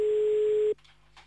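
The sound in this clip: An outgoing telephone call rings with a single steady ring tone, held at an even pitch for under a second before it cuts off to faint line noise.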